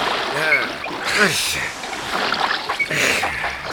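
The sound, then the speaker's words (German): Oars splashing and sloshing as a boat is rowed through water, a continuous wet churning under loud, shouting voices. “Packt an, Leute, wir müssen rudern.”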